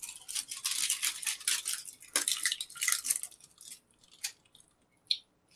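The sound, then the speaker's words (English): Close chewing of pomegranate chocolate: dense, scratchy crunching in steady bursts that thins out halfway through into a few faint, isolated clicks, with no talking. “So I'm eating some delicious pomegranate chocolate. It's so good.”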